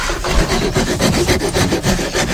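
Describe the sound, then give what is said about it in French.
Rasping and scraping of a file and rasp roughing down wood: a steady run of quick, rhythmic strokes, loud and gritty throughout, with no voices. “La lime, la râpe. Ouais. Tu dégrossis là, là, et après à la ponceuse, enfin main, tu viens comme on a fait la dernière fois.”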